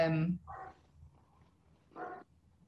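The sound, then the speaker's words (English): The speaker's dog gives a few short, muffled barks, faint and spaced apart, with a voice heard briefly at the start. “Sorry, my dog. Sorry.”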